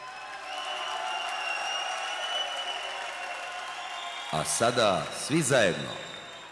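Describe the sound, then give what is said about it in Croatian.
Audience applause at a show in Skopje: steady, dense clapping that holds throughout, with a voice speaking over it near the end. “Zamolit ću vas sada za jedan spontani aplauz.”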